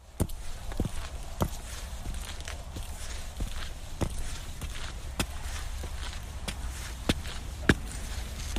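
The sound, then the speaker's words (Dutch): Footsteps climb the stairs up the IJsselmeer dike in Flevoland: many firm, sharp treads at a steady walking pace over a soft background hiss, with no talking. “Zo, en als je dan de trap op bent, dan kom je bovenop de IJsselmeerdijk.”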